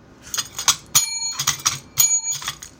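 Bicycle bell rung twice, each ring a bright metallic tone that lingers briefly, amid scattered light clicking and tapping sounds; loud and without voices.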